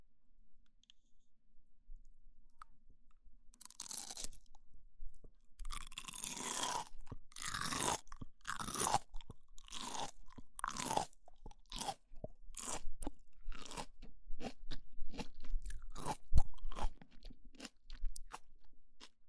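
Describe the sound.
Loud, crisp crunching as a raw, salty, very crisp green vegetable is bitten and chewed, with many sharp crunches in a quick irregular rhythm that settle into steady chewing, and no one talking.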